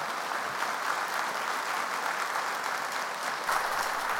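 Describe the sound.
Applause from a church audience welcoming a guest speaker, a thick, even wash of clapping that stays loud and steady for about four seconds.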